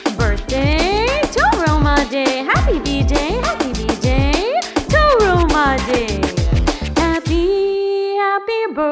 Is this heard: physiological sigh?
no